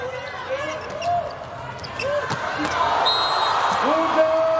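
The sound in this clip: A volleyball thumps on the court as a player bounces it before serving in a Brazil versus Turkey match. A few short, sharp impacts come under steady commentator talk.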